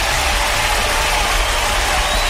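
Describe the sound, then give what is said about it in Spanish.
Applause from a crowd forms a dense, steady wash of clapping that stays at an even level from start to finish. “Ahí está, un aplauso.”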